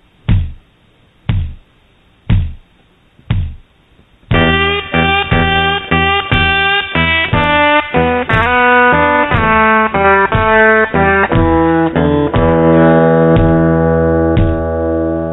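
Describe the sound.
Blues guitar figure with a kick drum: four lone kick thumps count in, then a steady guitar riff with small slides on the third string enters, the kick keeping time beneath it.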